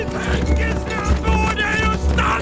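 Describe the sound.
Galloping horses pound out a fast, uneven drumming of hoofbeats that runs through the whole stretch, with raised voices calling out over the hooves.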